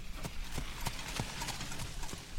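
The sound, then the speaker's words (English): Horse hooves clip-clop steadily as a horse-drawn cart passes, making many even, rhythmic hoofbeats over a continuous rolling background. “A horse-drawn cart passes us by”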